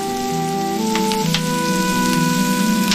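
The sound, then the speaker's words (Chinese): Giant freshwater prawns pan-frying in hot oil until golden, giving a steady, dense sizzle with a fine crackling hiss that holds at an even level throughout. “放入罗氏虾油煎。至焦黄捞出，热油，再倒入咖喱，最后倒入罗氏虾”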